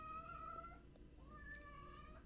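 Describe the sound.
A cat meows insistently before being put out of the room: two drawn-out, tonal calls, the first fading and the second rising back with a wavering pitch.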